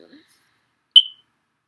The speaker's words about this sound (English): that smoke detector keeps going off.